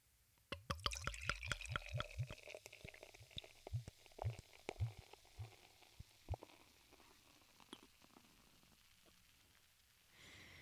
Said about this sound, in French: Je vais vous la déboucher dans vos oreilles, je vais arrêter d'en parler. Je vais déposer ça. Et je la verse.